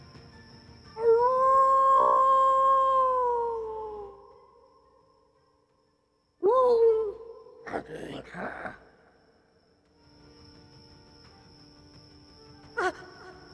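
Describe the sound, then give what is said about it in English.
Howling of a wolf pack: a long, sustained, wavering howl, then a shorter rising cry followed by rough, noisy bursts, and later a fainter, thin, drawn-out howl. “up ahead, you do hear a pack of wolves, and this creature stops”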